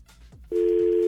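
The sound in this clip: A telephone call placed to a radio caller: a loud, steady single-pitch line tone starts about halfway through and holds unbroken to the end, with faint low sounds before it.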